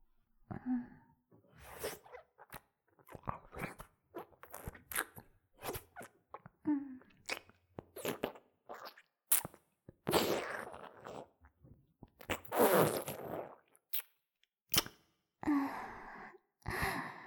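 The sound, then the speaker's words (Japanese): Close, wet licking and mouth sounds right beside the ear in ASMR style: many short, soft smacks and clicks in an irregular rhythm, with breathy sighs between them, all quiet. “耳元を舐められるとよーくわかるでしょ”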